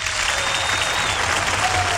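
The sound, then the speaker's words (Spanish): Warm applause, dense and loud, a steady wash of many hands clapping that holds even for the whole short stretch. “déjenme darle un merecidísimo aplauso. Les aplaudo arrodillada en pepas de durazno porque fácil no es.”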